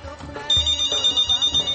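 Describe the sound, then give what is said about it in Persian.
Telephone ringing for an incoming listener call to a radio call-in show: a loud electronic ringtone pulsing in quick regular bursts around a high, steady tone. “تماس های تلفنی شماست دوستای عزیز، بازم یک هموطن عزیز ماست تلفن کردن جواب میگیم.”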